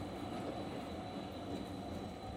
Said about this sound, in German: Die Tram biegt um die rostige Kurve zurück in den Wald.